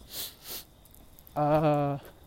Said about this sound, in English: Keep sniffling, I'm sorry.